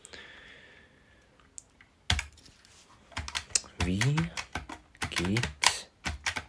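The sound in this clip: Typing on a computer keyboard in a notepad program: many clicky keystrokes in quick bursts and a few isolated taps, with a voice talking between them.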